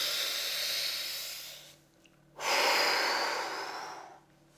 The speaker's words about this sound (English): Take a deep breath.